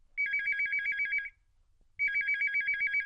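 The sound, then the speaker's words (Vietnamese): A telephone ringtone sounds as a call is being connected: two bursts of high, warbling electronic ringing with a short silent gap between them, clear and alone. “ngay bây giờ chúng tôi sẽ kết nối điện thoại đến với MC 2 Mạnh Đạt.”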